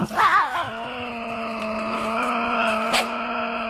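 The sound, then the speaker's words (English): A Tasmanian devil growling: one long, steady droning growl with a strong low tone and buzzy overtones, wavering at first and then holding level for several seconds. “You know, that is the sound of the Tassie Devil.”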